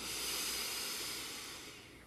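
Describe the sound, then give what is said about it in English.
A big breath drawn in during a vocal exercise, heard as a soft, airy hiss that lasts about two seconds and gradually fades. It is quiet, with no talk over it. “and take a big breath”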